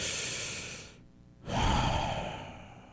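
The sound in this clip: A deep breath taken to calm down: two airy breath sounds separated by a short silent pause, the second a longer, slightly voiced sigh. Both are fairly soft and heard alone.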